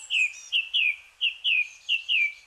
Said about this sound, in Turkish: Tüm dünyada kuş severler, doğacılar yarın şafak sökmeden doğadaki en büyük senfonik konseri dinlemeye gidecek. Yarın Uluslararası Şafak Korosu Günü.